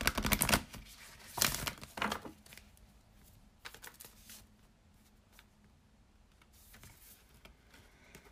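Oracle cards, cannabis-themed, are shuffled before one is pulled: a few crisp papery riffles and slaps at the start, then softer scattered rustles trailing off. Quiet throughout, with no talking.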